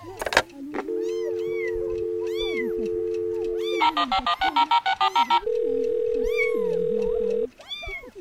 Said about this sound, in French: Le téléphone.